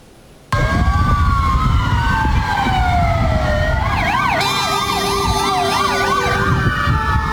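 A fire engine siren responding to a hospital roof fire in Kartal, Istanbul, cuts in abruptly and loud. A long, slowly falling wail shifts into a rapid warble over a steady low engine rumble.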